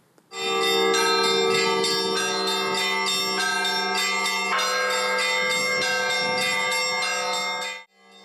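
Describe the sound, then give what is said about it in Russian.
Church bells ring out in an Easter peal: a loud, sustained, rich chime of many overlapping strikes, layered and resonant, starting suddenly and ringing on for several seconds before cutting off near the end. “В Бирской епархии завершился первый дистанционный фестиваль колокольного звона «Пасхальный перезвон».”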